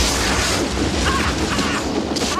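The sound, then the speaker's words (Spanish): Burning logs rolling out of a shot-up hearth and setting a table alight, heard as a dense, continuous roar of fire and crackling noise that stays loud throughout with no clear separate impacts. “Indiana asoma tras una columna y dispara al fogón. Los troncos ardientes ruedan y prenden la mesa y al hombre.”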